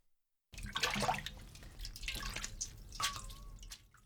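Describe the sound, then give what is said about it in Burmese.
Water drips and trickles as boiled mustard leaves, cooled in cold water and gathered into a bunch, are squeezed out by hand. After a brief silence comes a run of irregular wet drips and splashes, with no talking. “အရွက်တွေအေးသွားပြီဆိုလို့ရှိရင်အရင်ကနေစုကင်ပြီးတော့နောက်လက်တစ်ဖက်နဲ့ရေတွေကိုညှစ်လိုက်ပါ”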